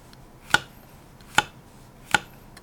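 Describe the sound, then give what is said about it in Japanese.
A knife slices mushrooms thinly, giving three sharp, quiet cutting taps at an even, unhurried pace against a hushed background. “マッシュルームですね、はい、これをまあ薄切りに切っときます”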